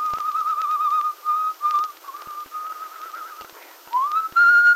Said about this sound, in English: Unconsciously, he'd started to whistle.